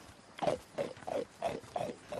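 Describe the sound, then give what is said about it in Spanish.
Pigs in a maze grunt and oink in six evenly spaced, short nasal calls of moderate loudness, with no voices. “Hay cerdos en un laberinto.”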